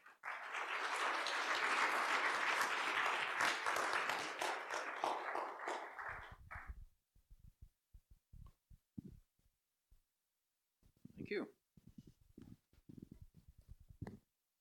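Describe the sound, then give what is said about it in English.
An audience applauds to welcome two guests at a Christian gathering, a dense, steady clapping for about six seconds that cuts off into quieter talking. “Friends, can I ask you to put your hands together and welcome Peter and Neil Chambers.”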